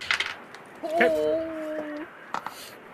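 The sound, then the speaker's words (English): Dice rolled during a tabletop roleplaying game: a quick cluster of light clicking rattles, then a voice, then another short clatter of clicks. “Make another dice roll. Wendy, do you want to spend momentum to make another dice roll?”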